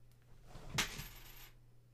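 A tossed coin lands with a single bright metallic clink, then a short shimmering ring that fades within about a second. The sound is faint and stands alone.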